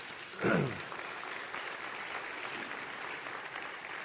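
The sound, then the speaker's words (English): A church audience applauds at a Baptist service, with soft, steady clapping from many hands and a short vocal exclamation near the start. “And we can applaud that.”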